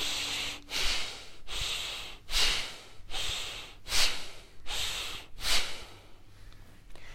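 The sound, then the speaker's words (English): Rapid, forceful panting breaths in a group breathing exercise at a workshop: a steady run of loud, hissy huffs of air that rise and fall in quick succession, with no talk over them. “Empty out your lungs. Panting breath, start.”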